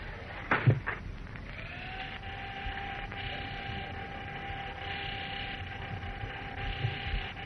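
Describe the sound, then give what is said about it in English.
An elevator arriving: a couple of dull thuds, then a motor whine that rises and settles into a steady, droning hum. “Ah, here we are. Here comes the elevator.”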